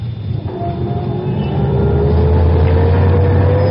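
Engine of a Rolls-Royce driving off after stopping in traffic: a steady low hum that grows louder after the first second and a half, with a faint tone slowly climbing in pitch.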